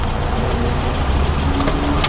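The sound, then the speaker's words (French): A heavily loaded family car towing a trailer gives off a steady, loud, low engine rumble with a continuous road hum. “Mais que voit-on arriver là? Une voiture familiale tractant une remorque, les deux chargés comme un mulet. Les essieux s'ouvrent et le font savoir.”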